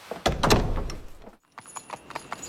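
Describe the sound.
Horses' hooves clip-clop as riders move along a road at night, a loud cluster of heavy hoof strikes followed by a brief gap and then lighter, quicker clops.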